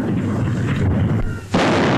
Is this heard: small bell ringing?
no